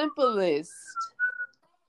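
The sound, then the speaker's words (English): A whistled melody from a song: a few short, clear, pure whistled notes that follow a brief burst of speech, fairly quiet and then fading into silence. “the simplest whistle you've ever heard in your life”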